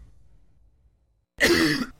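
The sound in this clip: A single cough in an advert for a natural-formula cough remedy: one loud, harsh, raspy burst after a near-silent stretch with a faint low rumble, with another burst just starting at the very end.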